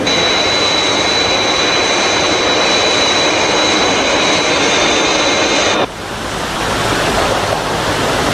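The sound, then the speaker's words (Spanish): Loud, steady roar of a jet aircraft in flight just after breaking the sound barrier, a dense rushing wash with a thin high whine that cuts out abruptly near the end, leaving the roar slightly softer. “atravesamos la barrera del sonido. Vamos a nivelar el vuelo.”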